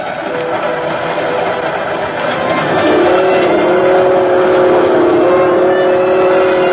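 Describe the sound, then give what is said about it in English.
A local passenger train runs at night near Kansas City with a loud, continuous mechanical rumble. It grows heavier partway through as sustained droning engine tones settle in, with no voices over it. “Somehow, that sound is the most lonesome sound in the world. But maybe that's because I feel so alone on a train late at night.”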